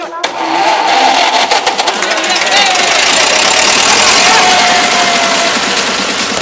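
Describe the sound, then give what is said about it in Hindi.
A vehicle engine starts, opening with a quick run of rapid cranking pulses before catching and settling into a loud, steady, rough-edged roar that holds for several seconds. “गाड़ी start कर।”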